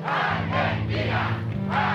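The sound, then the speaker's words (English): A massive archival crowd in Buenos Aires cheers General Galtieri on the balcony of the Casa Rosada, a dense, sustained roar of chanting voices swelling and falling in waves. “Galtieri on the balcony of the Casa Rosada with a massive crowd cheering him.”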